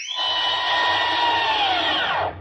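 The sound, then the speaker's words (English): Whirring elevator sound effect from an old radio comedy as the car goes up: a steady, fairly loud mechanical whine with a hissy edge, holding for about two and a half seconds before cutting off, heard alone without talk. “Hey, Bugs, what are you doing running an elevator? Well, I'm replacing a woman that's essential, Doc. Come on, stop wasting time. Get us up there. Okay, Doc, going up.”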